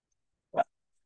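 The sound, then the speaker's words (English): A single short dog bark, one brief, sharp burst standing alone against silence. “That's the dog.”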